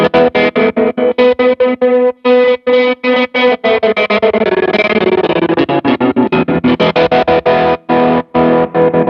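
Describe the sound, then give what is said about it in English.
Guitar played through a Blue Sky reverb pedal set wide and washy, with distorted chords struck in rhythmic, choppy bursts separated by short gaps and a smeared, shimmering tail blurring between them. “probably the most like memorable or used pedal on this is I love to turn the Blue Sky like really wide, washy.”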